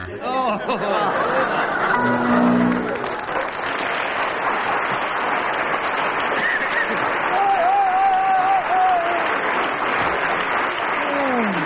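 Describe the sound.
Studio audience applause fills a comedy panel show, sustained and fairly loud throughout, with voices and scattered laughter mixed into the clapping.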